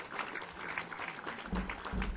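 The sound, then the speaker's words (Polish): Applause from an audience at a Polish school ceremony as school directors are invited onto the stage: faint, steady clapping texture with a few heavier low thuds near the end. “Wielkie brawa! Zapraszamy na scenę.”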